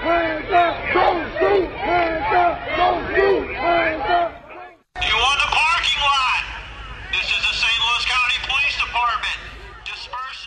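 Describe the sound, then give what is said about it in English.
Protest crowd in Ferguson, Missouri: many voices chant together in a loud, rhythmic, repeating pattern, then after a brief cut a second stretch of louder, overlapping shouts and yells from the crowd. “Sounds of protest and unrest in the St. Louis, Missouri suburb of Ferguson.”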